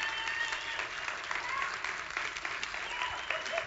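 A church audience at Tree of Life Church applauds to welcome a woman coming up to minister one morning, a steady, even clapping that carries on throughout.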